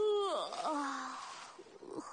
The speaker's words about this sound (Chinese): 他打了个大大的哈欠，缓缓进入了梦乡。